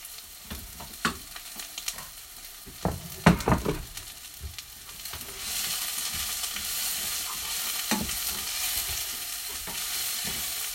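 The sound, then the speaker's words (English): Leeks going into a pan and frying: a few clattering knocks and stirring scrapes come first, then a loud, steady hissing sizzle takes over and continues to the end, with no voices. “it's going to be a big noise of a load of leaks going into a pan here. I'm going to do it, and I make lots of noisy.”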